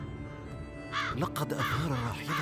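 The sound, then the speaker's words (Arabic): A crow caws a few harsh, rasping times while a man speaks Arabic over it. The calls are loud and land in the second half, set against a low steady background. “ما هذا الغراب الذي ينعب؟”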